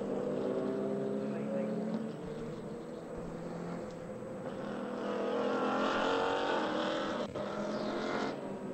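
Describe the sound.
Race car engines roar at Sebring during a 2018 Continental Tire SportsCar Challenge race near turn 17, a dense continuous drone with no break.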